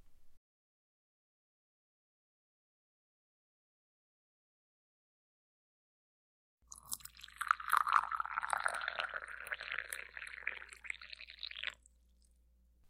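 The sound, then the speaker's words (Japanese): Hot water from a kettle being poured: after a long silence, a steady, fairly loud splashing pour lasts about five seconds and then stops. No one speaks. “あ、お湯沸いたわね。ちょっと待ってて。”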